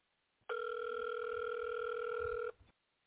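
A telephone call ringing out on an outgoing line: a single steady ringback tone lasts about two seconds, then cuts off into quiet. No voices are present.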